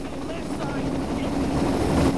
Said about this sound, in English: The helicopter lands and a squad of armed police scramble out.